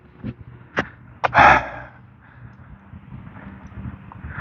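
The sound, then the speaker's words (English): Panting from the heat on a sunny 72-degree morning out on the high plains: a few sharp, breathy gasps close together early on, then fading into faint, airy breathing and low background hiss. “I'm panting from the heat.”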